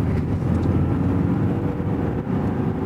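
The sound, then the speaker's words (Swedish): A car engine runs under light throttle as the driver accelerates, producing a steady, loud low rumble that holds fairly even throughout without a clear rise in pitch. “Han gasar lite.”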